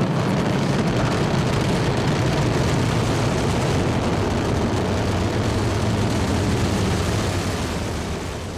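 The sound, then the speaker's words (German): Heavy, continuous roar of an Ariane 5 rocket lifting some 780 tonnes off the pad at Kourou, a dense, loud rumble that holds steady throughout and eases slightly at the end. “Der Start einer Ariane 5 ist ein gewaltiges Schauspiel. Rund 780 Tonnen heben von der Erde ab.”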